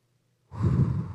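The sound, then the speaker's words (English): One deep breath comes after a brief silence as people breathe together: a single heavy, airy breath, close to a sigh, with a low rush that swells and then eases off. “Everyone just take a deep breath. Let's do it one more time.”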